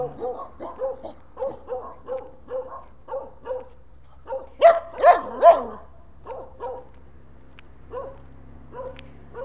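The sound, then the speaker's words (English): Guard dogs at Portuguese houses barking in a long, rhythmic run of many short barks, with three louder, sharper barks standing out midway before the steady barking resumes. “There's lots of guard dogs. In Portuguese houses.”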